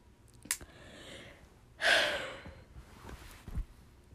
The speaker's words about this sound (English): sorry, that was a yawn